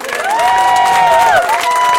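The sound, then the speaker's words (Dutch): Audience cheering and applause form a loud, continuous wash of crowd noise. A held, high-pitched cheer or whistle rides on top for most of the two seconds. “Dus ik wil graag nog een keer een echt groot applaus voor deze man.”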